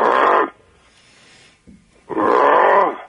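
Lions roaring while diners overlook a big valley: two loud, deep, rough roars, each lasting about half a second or more, separated by a stretch of near quiet.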